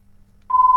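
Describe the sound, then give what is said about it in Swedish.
Telephone ringing during a bingo game: a steady, loud, high-pitched electronic tone starts about halfway through and holds to the end. “Og der ringer telefonen.”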